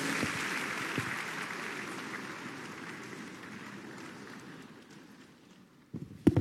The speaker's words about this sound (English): Give the Lord a big hand of praise, the life forever.